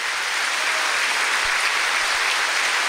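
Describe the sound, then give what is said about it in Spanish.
Congregation applauding during a church service, a dense, loud, steady wash of many hands clapping that continues unbroken throughout with no voices standing out. “Démosle un aplauso al Señor que nos está ungiendo, fortaleciendo y enviándonos.”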